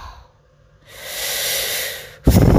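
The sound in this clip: A deep breath: a long, airy inhale that swells for about a second, then ends in an abrupt, louder rush of air.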